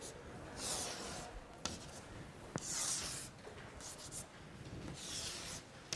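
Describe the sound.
Field lines are drawn on a board in faint, scratchy strokes, several rubbing passes separated by short pauses, with a couple of small taps between them.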